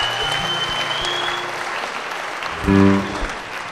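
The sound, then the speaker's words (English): An audience gives the musicians a big round of applause after a live music performance. Steady, dense clapping continues throughout with a brief swell near the end. “Give them a big hand, for God's sake. They deserve it”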